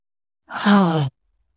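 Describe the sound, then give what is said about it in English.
One deep cleansing breath, let out as a single voiced sigh of about half a second. It is fairly loud and heard alone, with silence before and after. “Let's take 3 deep cleansing breaths.”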